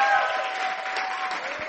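A church audience applauds to welcome a guest, with dense, steady clapping that holds at an even, fairly loud level throughout.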